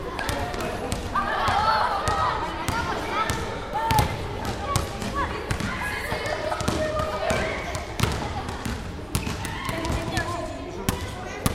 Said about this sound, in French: Alors aujourd'hui on présente le basket activité qui sera à l'UNSS le jeudi midi et le vendredi midi. Donc on a fait un petit atelier où les élèves peuvent dribbler, passer, courir, tirer.